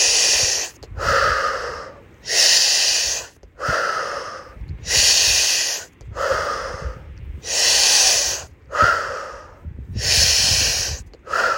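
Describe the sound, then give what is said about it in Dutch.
Deep breathing in and out during a breathing exercise: many strong, airy breaths with a slightly wheezy, snorting edge follow one another in a steady, even rhythm, each separated by a short pause, with no talking. “Nog 1. En dan gaan we adem in.”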